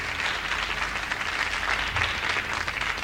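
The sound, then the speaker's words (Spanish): Audience applause before a song: dense, continuous clapping from a crowd that stays at an even, fairly loud level for about three seconds, with no voices standing out. “le aplauden antes de cantar”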